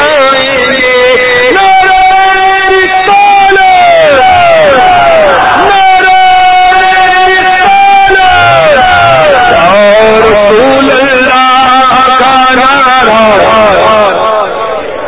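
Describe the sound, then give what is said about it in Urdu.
Many voices chant a religious slogan in unison at a weekly Sunnah-inspired ijtima gathering, loud and continuous, with rising and falling repeated phrases that overlap throughout. “یا رسول اللہ کا نعرہ لگا دے”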